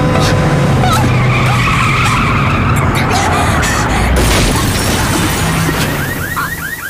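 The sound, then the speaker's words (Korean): A car skids with loud tire screeching as it swerves to dodge an oncoming cargo truck and slams into something, a sustained harsh roar of rubber and noise that stays loud throughout and eases slightly at the end. “맞은편에서 달려오는 화물 트럭을 피해 핸들을 꺾는 찰나 뭔가에 강하게 부딪히며 멈춰섰다.”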